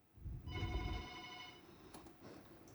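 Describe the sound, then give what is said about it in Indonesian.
Faint electronic telephone ring from an incoming listener call: a single harmonic ringing burst lasting about a second over low rumble, followed by quieter background noise. “Dan di sini sudah ada penelpon ya, langsung saja kita angkat.”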